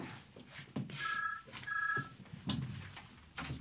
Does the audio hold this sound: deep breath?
no